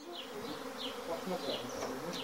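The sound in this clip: Honey bees buzz in a continuous droning hum. Higher-pitched whines rise and fade as individual bees pass, keeping a steady moderate loudness throughout.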